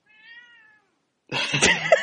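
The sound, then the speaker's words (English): A house cat gives a single drawn-out meow, soft and fairly steady in pitch, and then a louder, rougher noise bursts in after a short silence. “I'm hoping it's a cat. And nothing more untoward. Yeah, and that's my cat.”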